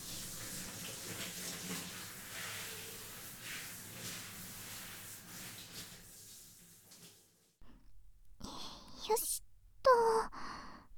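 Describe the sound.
Hot water runs to rinse dirt from hair before shampooing, a steady soft hiss lasting about seven seconds before it stops, followed by a few brief, faint sounds.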